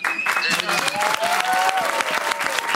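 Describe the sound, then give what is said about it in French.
Loud audience applause on a French television set, a thick, steady clatter of many hands clapping throughout, with voices talking over it. “On applaudit bien fort.”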